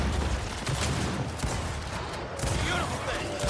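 Dense gunfire from a gun in the Gears of War video game, sustained rapid bursts that stay loud through the whole stretch.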